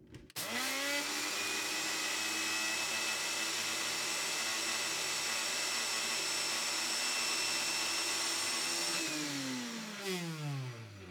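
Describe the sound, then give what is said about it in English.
An electric grinder grinds 40 milliliters of flax seeds with a loud, steady motor whine that holds for about nine seconds and then winds down as the blades slow. “I then grind the 40 milliliters of flax seeds.”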